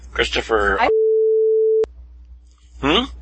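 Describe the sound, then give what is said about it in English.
A single steady mid-pitched censor beep, about a second long, covers a spoken last name, with a voice talking just before and after it. “I'll beep over his last name.”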